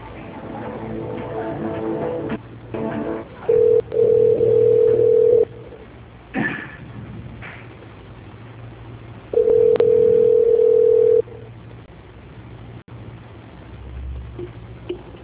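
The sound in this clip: A telephone line tone sounds while an office call is being transferred: two long, steady electronic tones separated by a quiet stretch of faint line hiss.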